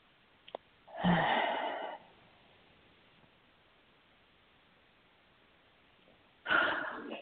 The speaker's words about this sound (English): Take a nice deep breath.